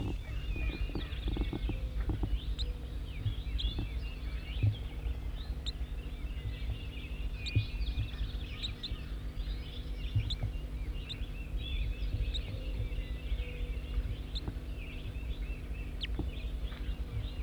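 Bird calls from a field recording: many short, high chirps repeat irregularly over a faint, steady low hum with scattered soft clicks and knocks.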